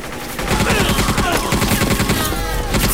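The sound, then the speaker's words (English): Machine gun fire from soldiers shooting down caught-off-guard rebels, heard as loud, dense rapid bursts that start after a brief quiet moment and continue almost without a break to the end. “Caught unawares, the rebels don't stand a chance against the soldiers' machine guns.”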